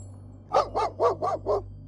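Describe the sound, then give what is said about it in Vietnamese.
A mastiff barks five times in a steady, evenly spaced series of loud, full barks over a constant low hum. “Đột nhiên có tiếng chó sủa vang lên.”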